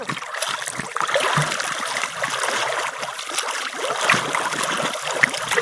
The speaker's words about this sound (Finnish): Otetaanko laiturin päähän ja kroolaat taas, eli ui vaparia tosi hienosti kuin äskenkin.